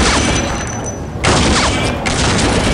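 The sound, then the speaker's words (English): A volley of gunfire erupts as Celestian Sororitas fire together in a Warhammer 40,000 battle, a dense, loud roar of overlapping shots with a brief dip midway before the barrage surges again. “The Celestians were no strangers to conflict, and as one, they laid a wall of shots upon the enemy.”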